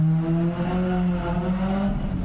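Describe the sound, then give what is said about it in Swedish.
Cars racing on the street outside: a continuous low engine drone with layered harmonics, steady and fairly loud, its pitch wavering only slightly as the engines hold their revs. “där var det racing utanför på gatan.”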